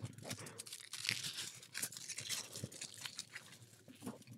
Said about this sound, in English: Don't look at the wrapper you just tore up. Just open the chocolate. So the chocolate. You didn't even open the tin foil.